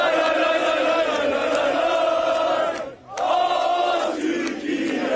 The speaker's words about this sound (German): Egal, wo ihr in den nächsten Monaten so hingeht, also im nächsten Monat auf jeden Fall, überall werdet ihr sie hören, die gehypten Fußballfans.